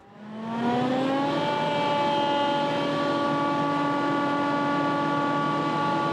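A forage harvester set to a 15 mm chop length runs with a slight rattle, its whine rising as it spins up and then settling into a loud, steady harmonic drone.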